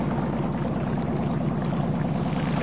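A small boat chugging along on the water, heard as a steady, continuous engine drone mixed with broad watery noise, holding an even loudness throughout.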